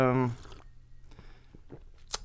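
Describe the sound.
Sipping coffee: after a brief voice, soft wet slurps and small mouth sounds follow, ending in a sharper sip.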